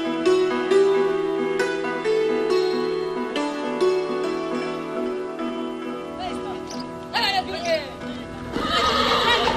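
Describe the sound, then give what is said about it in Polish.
A horse whinnies near the end, over a sustained tonal backdrop; the horse is being saddled at night in twenty-one degrees of frost during a wartime evacuation from East Prussia. “Przychodzę nocą i każę siodłać konia.”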